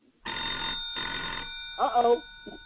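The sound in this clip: A telephone rings for an incoming call in two bursts of about half a second each, with a brief voice after the second ring.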